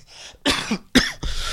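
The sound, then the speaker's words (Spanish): Harsh coughing from someone with a bad cough brought on by a strong virus: three loud, rough bursts in quick succession, alone without talk. “Tengo una tos horrible, terrible, ha estado cayendo como un virus bien fuerte.”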